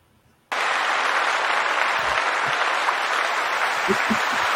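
Applause sound effect bursts in abruptly after a short quiet moment. It continues as dense, steady clapping at an even level to the end.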